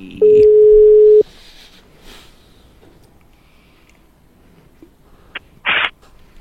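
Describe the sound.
Telephone ringing tone while placing a call: one loud, steady tone lasting about a second, then near quiet with a brief blip and a short, buzzy tone near the end.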